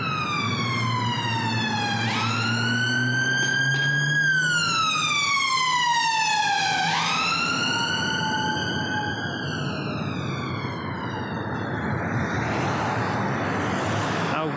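Busy traffic of cars and scooters on Lewisham Way in London, a steady rumble of engines under a loud wailing emergency siren that sweeps up and down in pitch several times before blending back into the road noise.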